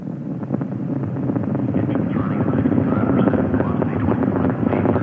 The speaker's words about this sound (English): Discovery arrowing her way out over the beach, headed out over the Atlantic. It goes from 0 to 1,000 miles an hour in the first minute of flight.